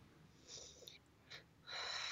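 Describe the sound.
Faint heavy breathing from a person between bouts of talking: a few airy, hissing inhales and exhales, ending in one longer, louder breath.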